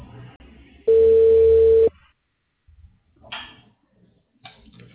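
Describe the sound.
A telephone call being placed: one steady, loud line tone lasting about a second, with quieter scattered noises before and after.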